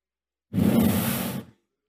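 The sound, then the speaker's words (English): A voice imitates God's breath blown into a man's nostrils: a single smooth, airy exhalation lasting about a second, heard alone and cut off cleanly. “He breathed into the nostrils the breath of life, and man became a living soul.”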